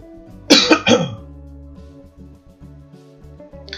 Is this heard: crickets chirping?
no